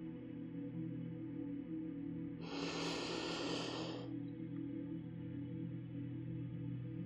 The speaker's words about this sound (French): Prenez maintenant de longues et profondes respirations. Inspirez pleinement par le nez.